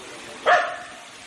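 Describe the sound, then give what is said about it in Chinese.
Countryside recording by a brook with homes, a village path, birds and children nearby: a single short dog bark rising briefly above a steady, even rushing background. “可以从这段录音里面听到小溪的声音，然后旁边有人家，有乡村小径，有小鸟、小孩，还有小狗。”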